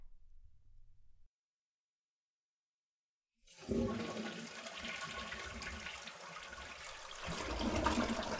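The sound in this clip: A toilet flushes with a sudden loud rush of water after a few seconds of silence. The rush keeps going as a steady gurgling roar, swells again near the end, and sounds alone.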